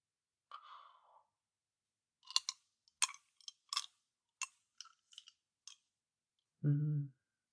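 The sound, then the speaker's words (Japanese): Wet licking and smacking mouth sounds, a quick run of short, soft clicks, with a faint breathy sound before them and a brief low voiced murmur at the end. “ずっと片方ばっかり舐めたから、こっちもやっと舐めてもらえて、嬉しいね。”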